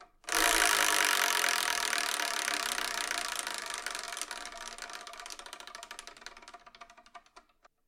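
A wheel spins with a rapid run of ratcheting clicks that start loud and dense, then thin out and slow over several seconds until they stop.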